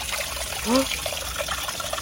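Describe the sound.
Water trickling around someone's feet, a steady, soft wash of running water that continues evenly throughout without distinct separate splashes.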